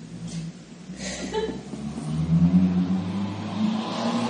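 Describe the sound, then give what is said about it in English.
A car engine revs and drones as a driver tears around recklessly outside, the engine growing louder partway through and holding steady. No tire squeal stands out. “Like hearing a crazy driver out there skidding around.”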